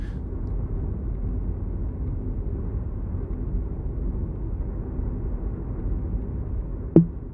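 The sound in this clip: Low, steady rumble of a car driving, used as a faint background sample at the start of a song. The drone stays even throughout, and a single sharp click sounds near the end.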